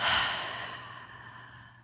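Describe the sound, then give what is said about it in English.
A deep breath out during a guided meditation, a long airy sigh-like exhale that starts fairly strong and gradually fades away, heard alone. “Take a deep breath in. Hold it. And out.”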